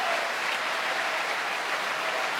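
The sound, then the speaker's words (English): Opera audience applauding a soprano and cast at a curtain call, a dense, steady wash of clapping that stays loud and even throughout, with no voices over it. “She applauds the other performers on the stage and moves back to join them as the audience welcomes tonight's Otello, Jonas Kaufmann.”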